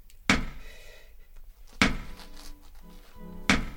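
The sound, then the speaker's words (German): Three heavy, dull knocks on a thick stone wall, evenly spaced about a second and a half apart, with near silence between the blows. “Seit Stunden klopfe ich jetzt hier vergeblich an diese Mauer.”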